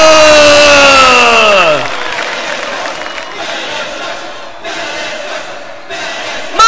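A wrestling arena crowd roars at deafening volume. A harmonic tone sweeps down in pitch at the start, then the massive, sustained crowd roar carries on alone.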